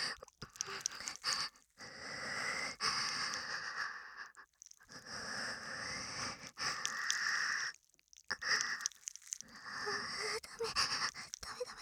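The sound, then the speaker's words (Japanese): Deep breathing in a series of heavy, airy breaths with brief gaps between them. The rhythm is irregular and somewhat panting, steady in level across the stretch, with no clear talk over it. “深呼吸深呼吸。”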